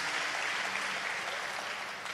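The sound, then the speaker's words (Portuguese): Applause from a church audience for the prophets: steady, dense clapping that holds an even loudness for the whole two seconds. “Vamos dar uma salva de palmas aí para os nossos profetas.”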